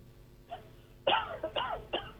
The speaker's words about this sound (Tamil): வாங்க, இருமல்லாம் முடிச்சுட்டு வாங்க.